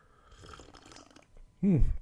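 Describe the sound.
A single short, loud slurping sip of winter tea from a cup comes near the end, after a quiet stretch of faint rustling.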